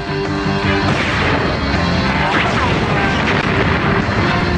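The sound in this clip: Weapon blasts from the 1990s Mega Man animated series: loud, dense crashing booms and bursts of energy fire that continue without a break for the whole stretch.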